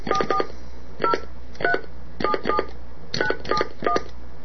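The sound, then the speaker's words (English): DTMF tones key a telephone number into a phone menu: a series of short two-note beeps in uneven groups, some quick pairs and clusters separated by brief pauses, sounding alone over a faint hum. “Please enter a telephone number, followed by pound.”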